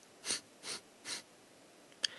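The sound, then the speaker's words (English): Short segmented sniffing inhales: three quick, soft sniffs evenly spaced in a steady rhythm, with no talking. “You inhale 4 sniffs, and then you could exhale 4 sniffs,”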